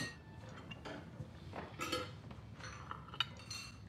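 Faint clinks of a plate and cutlery as birthday cake is served at a set table, a few light, bright taps scattered over a quiet background.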